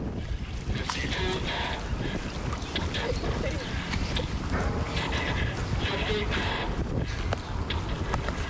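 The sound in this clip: A working replica of the Turtle submarine being driven in the Mystic River in Connecticut in 2008: continuous churning, sloshing water with many clattering knocks from the mechanism and muffled voices underneath.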